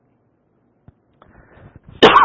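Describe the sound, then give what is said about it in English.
A lingering cough from someone still getting over it: near silence with a few faint clicks and rustles, then one loud, harsh cough burst at the end. “Excuse me, I've been dealing with this cough for a little while now, and I'm just getting over it.”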